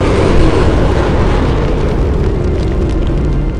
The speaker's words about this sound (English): So that just destroys that TIE fighter. Blow him out of the water.